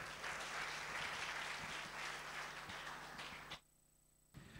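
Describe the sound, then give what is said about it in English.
Audience applause at a church worship service welcoming a pastor to the front. The dense, even clapping holds steady, then cuts off sharply near the end, leaving a short quiet gap. “Okay, let's put our hands together and welcome Pastor Leon.”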